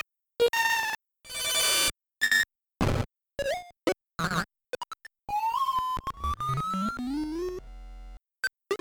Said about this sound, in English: As being the first entry here, it actually only uses the extra audio for sound effects. So it's not in the music at all. And here's what they sound like.